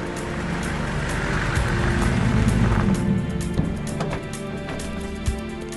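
A car drives toward a dome, its engine giving a low, steady rumble with a couple of faint knocks near the end.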